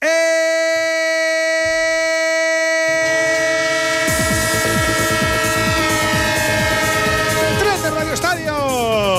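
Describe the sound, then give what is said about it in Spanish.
Train sound effect: a loud, sustained multi-tone horn blast over a heavy rumble, joined midway by fast rhythmic clacking of wheels on rails, with the horn's pitch sliding downward near the end as the train passes. “El tren de Onda Cero, claro que sí, el tren del fútbol y del deporte en vivo.”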